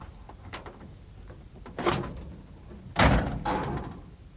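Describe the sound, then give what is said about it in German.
Dull metallic clunks and thuds as the hood of a broken-down Studebaker car, stuck after a gear change, is opened. There are a few knocks, with two heavier clunks standing out. “Wollen Sie mal die Haube aufmachen?”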